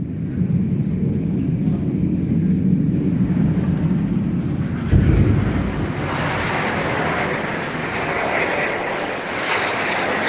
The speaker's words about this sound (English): every few hours, she can hear the sounds of bombs dropping and Israeli aircraft overhead. She sent me some of these recordings from her apartment.